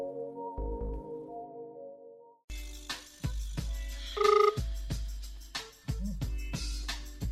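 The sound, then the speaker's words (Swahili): Outgoing phone call with a single short two-tone ringback burst midway, surrounded by intermittent clicks and line thumps. “moja tumpigie simu alafu tuweze kupiga mastori kibao”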